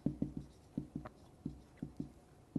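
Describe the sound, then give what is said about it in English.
Pen or pencil scratching as someone writes by hand on an angle: a series of short, dry scraping strokes in an uneven rhythm, each a quick soft rasp, with no talking. “This is where my writing gets really bad. Okay. Writing on an angle.”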